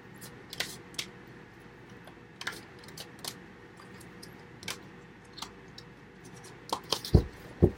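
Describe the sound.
Handling and drawing new, slightly sticky tarot cards gives soft, scattered clicks and snaps over a quiet background, with a tighter cluster of sharper ticks near the end.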